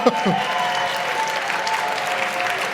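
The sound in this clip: Applause at a cooking session, a dense, steady patter of many hands clapping at an even level, with a few voices briefly audible above it.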